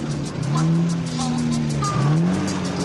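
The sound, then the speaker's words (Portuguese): A car engine accelerating as the driver works the clutch and presses the throttle: a steady low drone that holds, then climbs in pitch and loudness toward the end. “A embreagem, até minha filha consegue apertar a embreagem. Tá bem. Aperta o acelerador. Mais um pouquinho.”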